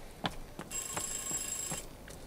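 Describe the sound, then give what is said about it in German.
Faint telephone ringing: one high, trilling ring lasting about a second, set against low background noise and a few soft clicks. “Ich muss an das Telefon.”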